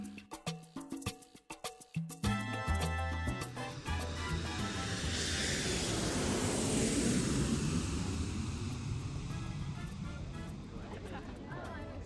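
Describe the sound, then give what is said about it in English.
Jet aircraft engine taking off, building into a broad rushing roar that swells over several seconds and then holds loud and sustained. “The jet is ready. I have fueled it, and I have stocked it with bourbon. Excellent, Richie. It is time for me to pilot you to South America. Here we go.”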